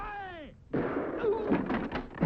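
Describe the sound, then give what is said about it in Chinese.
A gunshot sound effect, fired at someone on a rooftop, follows a sliding descending tone: a loud, sharp blast breaks in, then rough, rumbling bursts that swell again at the end. “一颗还有那么点灵气的子弹在皮特的胳膊上蹭了一下”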